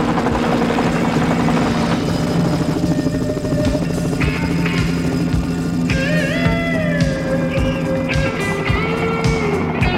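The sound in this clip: A helicopter roars with loud, continuous rotor and engine noise that stays steady throughout, while whining tones slide up and down in pitch over it.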